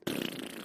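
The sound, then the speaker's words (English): A comedic fart sound effect: one short, loud, buzzy burst that holds briefly and trails off, heard alone. “This is the sound of a poop on Christmas in the Christmas tree.”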